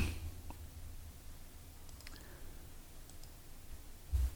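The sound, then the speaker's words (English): Computer mouse clicks, a few faint, sharp ticks spread irregularly across near-silence, with a slightly louder thump at the very end. “So let me click on this one.”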